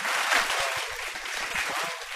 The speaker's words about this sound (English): This is like applause.